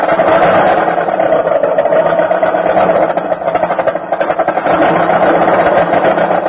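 A car engine sputters and bucks while failing to start on a cold winter morning, a loud, rapid, steady mechanical chugging with a brief dip midway before it resumes.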